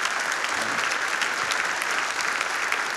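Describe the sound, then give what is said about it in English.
Congregation applause at a camp worship service: steady, dense clapping that stays loud and even for about three seconds, with no clear talk over it. “Go ahead and give the Lord a hand of praise.”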